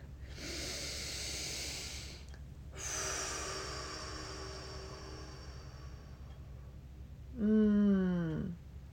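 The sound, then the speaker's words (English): Someone takes a deep breath, with two long airy breath sounds in a row. A short voiced sigh follows and drops in pitch. “So I'm going to take another deep breath.”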